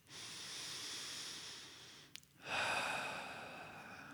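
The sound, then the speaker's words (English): Deep breaths in and out during a breath-focused meditation: two long, airy, hissing breaths, the second louder and stronger after a brief pause, with no talk. “Take a couple deep breaths in and out.”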